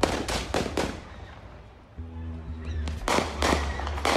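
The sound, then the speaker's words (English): Gunshots fired in the parking lot of an auto service shop: two clusters of sharp, loud bangs, a few quick reports at the start and another burst near the end, with quieter background between them. “Moments later, shots ring out.”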